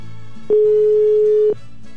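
A telephone ringing while a call waits for an answer: a single steady electronic ring tone lasting about a second, loud and clear over a constant low background hum.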